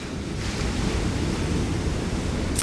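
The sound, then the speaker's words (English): Ocean surf washing onto a beach at night: a steady, continuous rushing roar with no distinct breaks. Wind noise runs through it, and no voices are heard. “I am currently recording this portion of the episode at the beach, so I'm sitting outside underneath the stars listening to the water. So if you can hear noise in the background, that's what you are hearing.”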